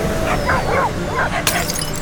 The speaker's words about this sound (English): So every one of those dogs has been distracted